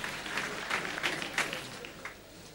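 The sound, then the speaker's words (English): Congregation clapping at a church altar service: dense, steady applause that holds throughout, with a few louder bursts rising above the continuous patter. “Clap for Jesus Christ.”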